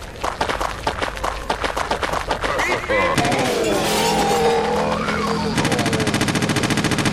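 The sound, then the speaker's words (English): Machine gun firing in a video game: loud, rapid bursts of shots in quick succession, with the texture of the gunfire shifting partway through and ending in a steady, regular run of repeated shots. “Machine gun. Let's show you the machine gun.”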